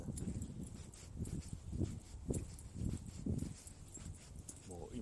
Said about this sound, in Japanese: 完全に静かな住宅街をね、こう、歩いております。